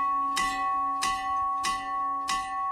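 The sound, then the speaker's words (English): An old schoolhouse bell from 1900, used as a camp dinner bell, is struck four times at a steady, even rhythm. Each clang lands on a bright, sustained ringing tone that hums on between the strikes. “Boys' camp procured this bell after years of being ridiculed for its pathetic dinner bell.”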